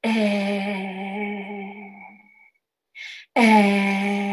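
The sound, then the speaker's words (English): A single voice sings a sustained "eeh" vowel, toned for the third chakra at the solar plexus: a long, steady, resonant held note that fades after about two and a half seconds, a short soft sound, then another full held note begins. “But the tone for this is EEH for this particular third chakra. So it sounds like this.”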